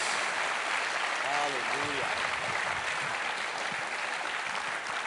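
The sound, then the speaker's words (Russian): A church audience applauds during a bilingual sermon, giving steady, even clapping throughout, with a voice briefly rising above it early on. “Давайте мощно аплодисментами поблагодарим Его.”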